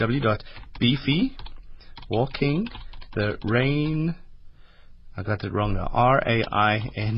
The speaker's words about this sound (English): In fact, I'm going to try and type and talk at the same time.